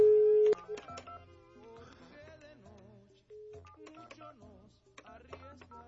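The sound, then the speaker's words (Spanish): A telephone number is dialed on a phone: a steady tone opens, then short keypad tones follow amid other background sound. “Entonces aguántame y le marco a mi querida Luz.”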